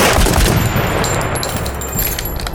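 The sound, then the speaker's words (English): Guards fire a warning shot, heard as loud, dense gunfire: a continuous crackling burst with sharp high snaps throughout, no clear pause between shots. “Guards, fire a warning shot.”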